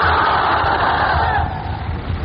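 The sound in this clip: A crowd roars the takbir, Allahu Akbar, in unison. The loud, sustained collective cry holds for over a second, then drops away into a lower murmur.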